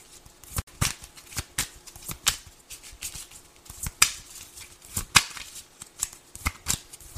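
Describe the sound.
Tarot cards being shuffled and drawn during a reading, many crisp snaps and papery riffles in an irregular rhythm, some sharp flicks standing out among softer shuffling.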